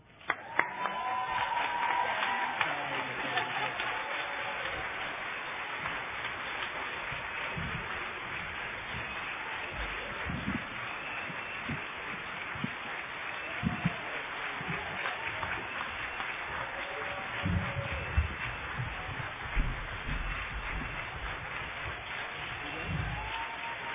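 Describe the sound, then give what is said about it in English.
An audience rising to its feet to welcome a co-founder: a continuous wash of applause, shuffling and crowd rustle that holds steady for the whole stretch, with scattered low thumps of movement. “Will everyone please stand and join me in welcoming her now?”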